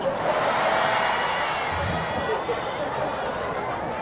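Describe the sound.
An audience answers a spoken Islamic greeting with a dense, steady roar of many voices and scattered shouts. The crowd noise stays loud and continuous throughout.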